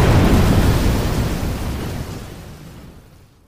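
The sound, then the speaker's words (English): A box of dynamite explodes after a cigarette drops into it in a small canyon, a loud, deep rumbling roar that starts at full force and slowly dies away over a few seconds. “he drops his cigarette into the box of dynamite.”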